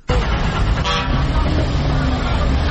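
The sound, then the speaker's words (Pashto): Vehicle horns honk at a busy passenger car station in Kandahar serving Kabul-bound small and large vehicles. A loud, dense wall of traffic noise runs throughout, with a short horn toot near the middle. “دا په کندهار کې د کابل موټرونو اډه ده چې لدې ځای هر ورځ زرګونه مسافر په کوچنی او غټو موټرونو کې کابل ته تګ راتګ کوي.”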